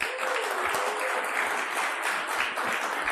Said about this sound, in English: Please help me welcome to the stage, Margaret Dolan.